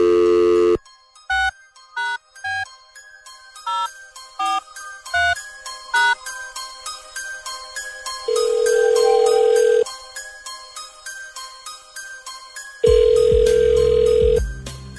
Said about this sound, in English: let's find out. Dialing at random.